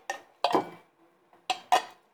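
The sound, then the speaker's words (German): Scraping and clinking as a half-full can of food is emptied onto a plate: a few short, bright metallic scrapes and knocks with quiet gaps between them. “Wir holen Dose und machen auf Teller.”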